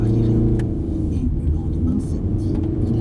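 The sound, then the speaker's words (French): A car accelerates on a road, its engine giving a heavy, steady low rumble that continues without a break for the whole clip. “Vas-y, accélère.”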